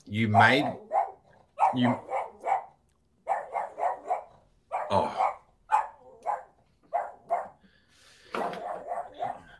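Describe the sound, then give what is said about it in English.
A dog barks frantically at someone at the door, firing many rapid barks in quick runs separated by short pauses. “Sorry, there's somebody at my door and my dog is flipping the heck out.”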